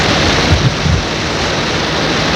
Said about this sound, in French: Pleut à verse avec du vent, l'on y voit à peine